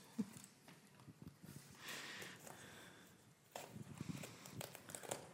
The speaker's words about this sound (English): I like a lot of mess when you're unwrapping presents, is how it should be.